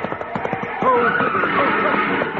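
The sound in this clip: A car skids after one of its tires is shot out during a chase, giving a sustained tire screech that starts about a second in and continues to the end. Voices are heard briefly at the start.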